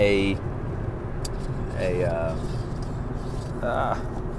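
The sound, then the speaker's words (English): Steady low road and engine rumble inside a moving car at night, continuous and even, with a person talking over it throughout. “it's night. I'm trying to find the cup holder for my coffee, and driving is the number one priority right now.”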